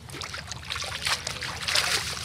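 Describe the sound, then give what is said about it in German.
Water splashes and trickles as a bunch of leaves is washed in sandy Nile river water at the bank, a continuous, fairly soft sloshing with brief swells of louder splashing. “wäscht ein Bund Blätter im sandigen Wasser am Ufer des Nils.”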